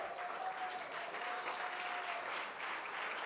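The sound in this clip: An audience gives thick, sustained applause to welcome a pastor, with the clapping holding steady and even throughout.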